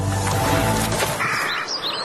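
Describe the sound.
A lesser kestrel gives a few high, thin chirping calls in quick succession over steady background noise, mostly in the latter half.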